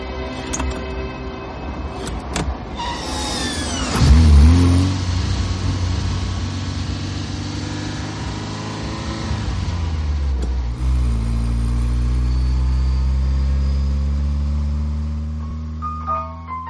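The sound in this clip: Car engine pulling away after being shifted from neutral into second gear with the clutch released, in a film driving scene. The engine note climbs steadily, dips, then climbs and holds again.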